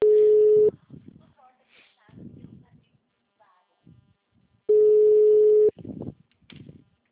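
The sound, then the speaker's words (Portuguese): Two long, steady telephone tones, like a busy signal after a dropped phone call, separated by several seconds of people talking quietly. “caiu a ligação.”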